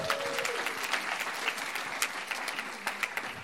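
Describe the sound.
Audience applause welcoming a speaker: dense, steady clapping that holds at an even level for the whole stretch, with a few sharper claps standing out.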